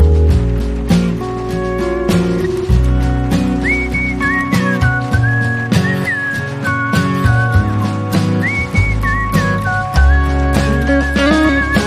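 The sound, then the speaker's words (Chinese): Bright, melodic whistling rides over a pop song with steady beat and instruments, the whistled tune sliding between sustained high notes in a few phrases. “人家唱歌你怎么吹口哨呢？”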